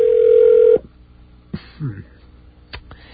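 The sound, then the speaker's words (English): A radio station calls back a 7-Eleven in Fort George Meade, Maryland. A steady, low telephone line tone sounds for under a second and then cuts off abruptly, followed by a few sharp clicks and faint line noises. “We're going to do something kind of rare here and call back a second time to see what happens.”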